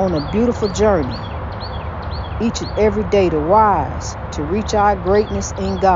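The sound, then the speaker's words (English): Birdsong of short, bright, high chirps recurs throughout beneath a voice speaking steadily in the foreground. “Just as you hear that beautiful bird singing, that's what we headed to.”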